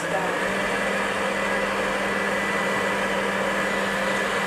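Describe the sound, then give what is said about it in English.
An electric stand mixer runs at medium-high speed, creaming sugar, shortening and eggs. Its loud, even whirring drone holds steady from start to finish. “And now I'm at my mixer, and the first thing is you have to cream your sugar, your shortening, and the eggs, which I'm going to do now. And medium high, I think, should do this.”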